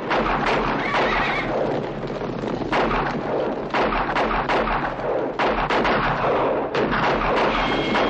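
Gunfire rings out in a 1960 western film shootout as gunmen fire at outlaws. Many sharp shots crack amid loud horse neighs and galloping hooves.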